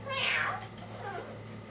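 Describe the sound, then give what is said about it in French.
A single meow, with pitch sliding downward, comes from a little cat-on-a-bicycle figure. It is fairly faint, and a low, steady hum continues after it. “C'est une... c'est un petit chat à bicyclette? Est-ce que c'est un chat, ça? Oui. Ah, oh, ça ressemble à un chat.”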